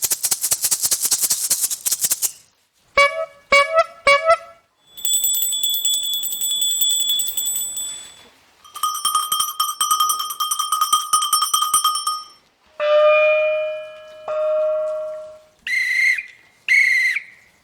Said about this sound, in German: Also für den Giraffe haben wir die Rassle. Für Nashörner haben wir eine alte Velohupe. Für Zebras haben wir ein Glöckli,